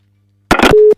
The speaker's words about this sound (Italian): non riuscirò a parlargli, al telefono. Pronto? Pronto?